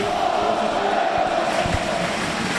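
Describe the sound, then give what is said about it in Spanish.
Football fans chant for their coach after promotion to Primera División, a dense, steady roar of many voices that stays loud and unbroken throughout. “Y vuelven a cantar al entrenador.”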